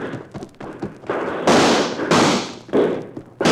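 Rifle gunshots in a shootout: several loud, sharp blasts with noisy, lingering tails, following a few fainter thuds at the start, with no talking.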